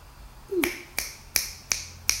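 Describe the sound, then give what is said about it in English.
Five crisp finger snaps ring out alone, evenly spaced about a third of a second apart, each a sharp bright click with a short decay. “faster than I can snap my fingers”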